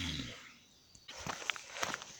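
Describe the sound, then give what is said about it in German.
Footsteps of a person limping along, a few soft, unevenly spaced steps that grow slightly louder. “So, jetzt laufe ich wieder, beziehungsweise ich humpele vor mich hin.”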